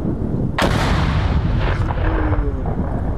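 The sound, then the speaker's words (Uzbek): Mortar shelling of frontline positions near Bakhmut: one loud, sharp blast, then a fainter second boom, over a steady rumbling background. “Baxmut ostonasidagi marralari minomyotlardan o'qqa tutilgani aks etgan videolarni yoyinladi.”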